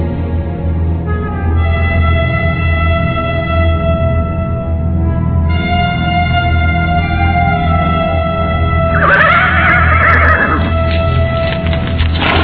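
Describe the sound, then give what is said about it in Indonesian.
A horse whinnies loudly near the end as its rider pulls the reins, rising out of a steady, droning background. “Empu Janardana buru-buru menarik tali kekang kudanya”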